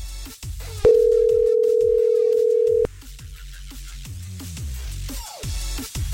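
A steady telephone dial tone sounds as a call is placed to try to win a prize, one loud unbroken hum of about two seconds that cuts off abruptly, with other clattering background sounds before and after.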